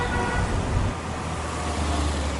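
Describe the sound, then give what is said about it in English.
Road traffic in Baku city rumbles as a steady, dense wash of car and engine noise, continuous and unbroken, with no voices. “and then there's the traffic”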